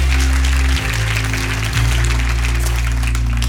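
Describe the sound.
Applause for a church worship and production team at a Christmas service, a dense steady patter of clapping over a low sustained musical tone, loud and even throughout.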